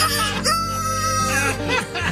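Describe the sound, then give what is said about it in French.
A rooster crows alone in a long, loud, harmonic call, followed by shorter rough clucking sounds. “je vais te montrer comment j'ai réussi à faire crier un coq à l'heure que je veux avec de la broche puis une batterie de char.”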